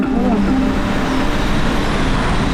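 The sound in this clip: Road traffic at a smart traffic light makes a loud, steady rumble and roar of passing vehicles that continues without a break.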